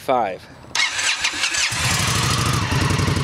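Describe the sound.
A 2016 Indian Scout 60 motorcycle starting: a brief voice, then the starter cranks and the engine catches and settles into a loud, low, steady rumbling idle.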